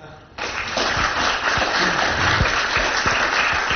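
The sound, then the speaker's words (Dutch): An audience applauds at a gathering just after a minute of silence. Many hands clap in a dense, even patter that begins abruptly and keeps a steady level, with a few sharper individual claps standing out. “Applaus.”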